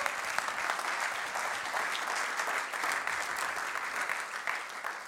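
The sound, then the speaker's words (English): Audience applause welcoming a speaker, a dense, steady wash of many hands clapping that holds at an even level throughout without breaking. “let's give it up for Simon and welcome him right now.”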